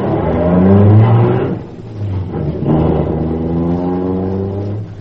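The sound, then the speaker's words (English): A car pulls away from the curb, its engine revving loudly with pitch climbing, dipping briefly, then climbing again in a second steady rise. “Now, sit down, everybody. I'll pull away from the curb.”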